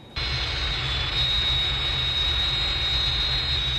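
Steady, loud aircraft engine drone from a target aircraft flying after release from an Air Force tow plane. It starts abruptly just after the opening instant, then holds a continuous roar with a thin high whine on top.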